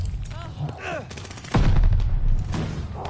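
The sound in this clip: A gunshot in a video game cracks out as one loud, sharp boom, followed by a sustained roaring rumble, with softer game sounds before it.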